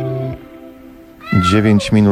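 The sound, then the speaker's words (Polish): A cat meowing: two loud, drawn-out meows in quick succession, coming after a quieter stretch of low background tone. “Ktoś tu miauczy. Miauczy rzeczywiście. Jak tu przerażliwie.”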